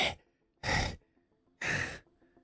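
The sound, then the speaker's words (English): A voice imitates the heavy panting of an exhausted character lying down after a first enemy fight in a role-playing game: three loud, breathy gasps separated by short silent pauses. “So as Hex, he lies there and he's panting like,”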